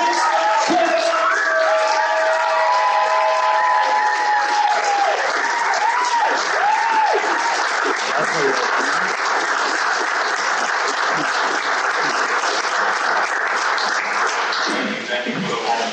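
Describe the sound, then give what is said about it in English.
Sustained audience applause at a live business event as a guest takes the stage, dense and loud across the whole stretch, with cheering voices mixed in and easing only slightly near the end. “Everybody raise up, clap your hands, put your hands together for Mr. Larry Fitzgerald.”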